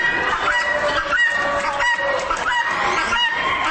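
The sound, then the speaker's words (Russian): A hen clucks loudly and continuously in a run of repeated throaty clucks and cackling calls with a steady rhythm, alone without talk. “Вот, например, курица, которая подает голос так.”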